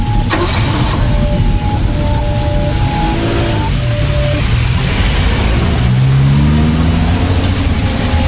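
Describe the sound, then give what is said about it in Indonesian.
A car driving at moderate speed on an empty road, not pushed hard, gives a loud, continuous rush of engine and road noise throughout, with faint engine tones gliding slightly in pitch. “Kulajukan mobilku dengan kecepatan sedang, tidak terlalu ngebut walaupun jalanan kosong.”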